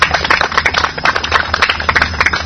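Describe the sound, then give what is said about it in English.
Applause for performers at a Hare Krishna gathering, with a small group clapping in loud, distinct, uneven claps over a low steady hum. “Another round of applause.”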